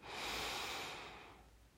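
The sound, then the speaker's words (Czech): A deep inhale through the nose during a yoga lesson: a single long, soft, airy breath that swells quickly, holds, then tapers away, faint and alone. “Hluboký nádech vedený nosem”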